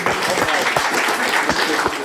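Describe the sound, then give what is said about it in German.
Audience applause at a live quiz show about video games, dense, steady clapping at an even level with a voice talking over it. “Einmal Applaus für den.”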